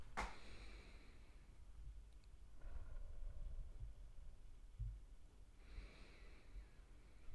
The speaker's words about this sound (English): Open your eyes now and let's take 3 deep breaths in through the nose and out through the mouth together.